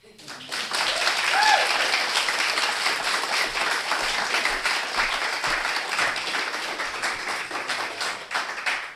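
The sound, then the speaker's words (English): Audience applause for performers at the close of a live arts evening show: a dense, sustained clapping that swells within the first second and holds steady for about nine seconds, with a few voices briefly audible in the mix. “And a huge thank you and round of applause for all of our performers this evening.”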